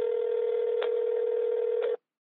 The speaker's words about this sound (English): You can leave a voicemail if you want to leave us a testimonial of how we've helped you, or you can leave a question that we'll play on this podcast. And here is today's voicemail.